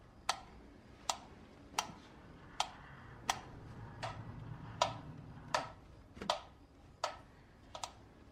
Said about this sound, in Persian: چشماتو ببند. به تیک تاک گوش بده و روش تمرکز کن.